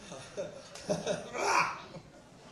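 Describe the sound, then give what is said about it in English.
Faint, rough throaty bursts from an audience member coughing during a live concert, a few short irregular hacks with the strongest burst near the end. “you can cough, man, it's okay.”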